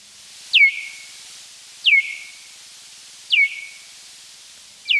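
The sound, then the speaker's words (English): Bat echolocation calls, slowed down and lowered in pitch about twenty times, come as four high, downward-sweeping chirps at an even spacing, each a quick falling whistle with a short tail, over a faint hiss. “But through recording and then slowing down the echolocation sounds and lowering the pitch by some 20 times, it does sound like this.”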